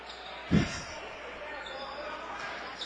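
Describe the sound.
A single basketball bounce on a court during a college game between Dordt and Morningside: one solid low thump, then a steady background wash with faint voices.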